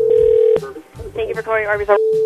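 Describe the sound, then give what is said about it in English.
Telephone ringback tone as a call is placed to an Arby's restaurant: a steady mid-pitched tone breaks off while a voice talks over the line, then the same tone resumes at the end. “I'm going to try an Arby's call, though, before we end today's show.”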